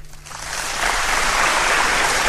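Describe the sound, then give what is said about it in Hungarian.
An audience applauding: clapping starts thin and swells within the first second into a loud, continuous, dense patter that holds steady to the end. “Az úri közönség tapsol.”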